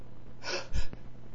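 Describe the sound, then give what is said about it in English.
A single sneeze: a breathy intake that builds into a short, forceful burst with a low thump, heard alone without talk. “Oh, I have to sneeze.”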